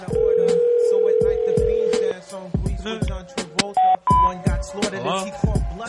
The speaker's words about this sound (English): Should we try and call her again?